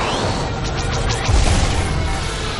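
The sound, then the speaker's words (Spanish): A missile striking an X-wing fighter during the space battle in Star Wars: The Force Awakens, a loud crashing blast with a few whooshing sweeps early on and a deep booming rumble swelling mid-way. “Un cañón dispara dos misiles. Un ala X los esquiva y otro recibe un impacto.”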